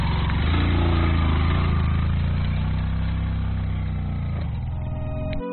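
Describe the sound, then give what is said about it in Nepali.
A motorcycle engine labours uphill carrying two riders, barely able to pull on the climb. Its loud, steady low drone wavers slightly in pitch and runs through the whole clip, with no voices. “समथलमा सहजै उक्लिन्छ motorcycle, उकालोमा तान्दै तान्दैन।”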